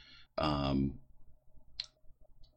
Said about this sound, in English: sorry, switching through tabs here.